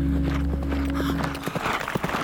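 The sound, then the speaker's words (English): Horses ride over shifting sand, their soft hoofbeats running steadily under a low droning hum; no voices. “Micah Baron and his father Rickard were riding horses over the shifting scarlet sands of their homeworld, Tau City 3.”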